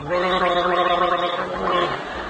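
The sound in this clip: A throat gargles fluid in a loud, continuous bubbling gurgle with a voiced, rattling tone that runs steadily without a break.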